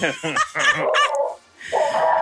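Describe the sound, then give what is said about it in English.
A dog growls with high, strained yelping and whining cries in a few rapid bursts, followed by a short pause and a longer whine. “That is a growl to make a grown man's heart cry.”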